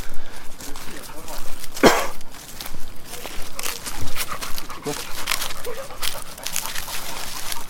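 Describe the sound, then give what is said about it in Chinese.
Dog sounds from a large Labrador on an outing with people, mixed with footsteps and movement on a slippery path, with one brief sharp sound early on and people talking. “我们出行身边有一个有一只很大的拉布拉多跟我们一起。”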